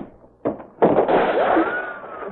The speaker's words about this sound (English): Somebody with a long-range rifle trying to get into the act.